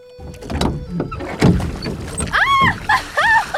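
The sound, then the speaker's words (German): A wooden rowing boat rocks on water, giving a series of creaks, knocks and dull thuds, then several squeaky, whining strains from the timbers and oar. “Hastig ergriff der Richter das Ruder und versuchte aufzustehen. Das Boot begann gefährlich zu schaukeln.”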